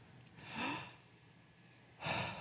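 A deep breath exhaled toward a hand held before the face: two soft, airy breath sounds, faint and alone, the second near the end.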